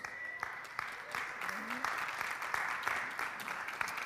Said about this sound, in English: keep clapping because they still got a little ways to walk